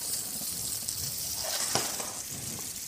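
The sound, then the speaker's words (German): Food fries in a steaming pan that is not too hot, a continuous soft sizzle and hiss with a single small clink partway through. “Pfanne dampft. Darf jetzt nicht zu heiß sein. weil sonst verbrennen die natürlich ganz schnell. Aber soll auch gleich anfangen zu braten.”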